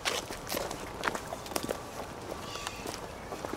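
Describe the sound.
Footsteps walking outdoors through a cemetery, a continuous run of soft, irregular steps at an easy pace with a few sharper scuffs along the way.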